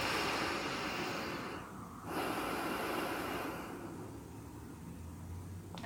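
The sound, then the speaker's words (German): Deep, full breathing in and out through the nose, a soft airy rush that fills the whole clip, with a short lull between breaths and a long, steady flow of air afterwards. “atme jetzt tief und vollständig durch die Nase ein und aus.”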